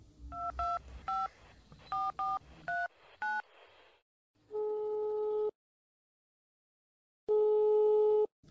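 A telephone call is being placed: a quick series of touch-tone dialing beeps, then two long, steady ringback tones separated by silence, all fairly faint.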